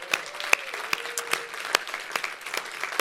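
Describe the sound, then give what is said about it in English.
Scattered claps from a church audience giving a hand to online viewers, many sharp individual claps at an uneven pace, fairly faint overall. “Can we welcome all our online viewers real quick? Can we give them a big hand?”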